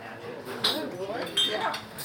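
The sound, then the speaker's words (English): Dishes and cutlery clatter during the lunchtime rush at a busy diner in Chester, Vermont, with a couple of sharp clinks standing out over continuous chatter. “Dishes clatter, booths are cramped, and orders fly out of the kitchen. It's lunchtime at the Country Girl Diner in Chester, Vermont”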